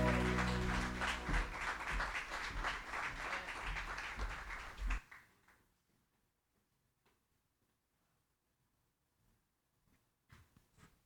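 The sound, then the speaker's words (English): A church audience claps their hands in praise. Loud, dense clapping fills about five seconds, then cuts off abruptly, leaving near silence with a few faint scattered sounds. “Praise the Lord. Give Jesus a hand clap.”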